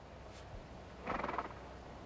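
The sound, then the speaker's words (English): A horse gives a single faint whinny with a brief pulsing rise and fall, over a quiet background. “Charles scrambles to the top of the dune and looks at Robert's horse.”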